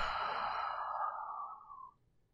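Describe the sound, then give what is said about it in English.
A slow, relaxed exhale during a guided breathing exercise. A soft, steady, airy rush lasts about two seconds, then gradually thins and fades to quiet. “Notice how your breathing is more relaxed and a little slower. Let's do 3 more together. Inhaling and exhaling.”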